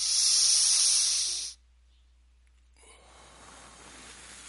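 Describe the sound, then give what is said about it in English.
A deep breath drawn in and let out: a loud, breathy hiss for about a second and a half, a short silence, then a softer, steady exhale that carries on to the end. “Stand up, everyone. Take a deep breath.”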